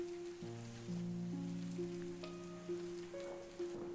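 Heavy rain falls, giving a faint, steady hiss beneath low, sustained musical tones that shift in pitch now and then.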